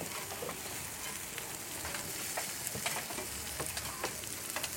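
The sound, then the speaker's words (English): Meat sizzles on a grill kept at moderate heat, giving a soft, steady hiss dotted with many small crackles and pops throughout, with no voices. “And when we're cooking here, we're cooking at kind of what I would call maybe a temperate grill, not too high, so that it cooks entirely rather than burns on the outside and you end up with a whole load of raw meat inside.”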